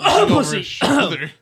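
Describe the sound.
Throat clearing from someone with something caught in the throat: a few rough, voiced rasps in two bursts with a short pause between them, fairly loud.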